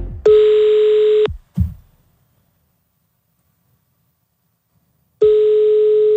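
A telephone ringback tone sounds while a call is placed. There are two steady one-second beeps separated by about four seconds of silence, with a brief soft thump just after the first beep.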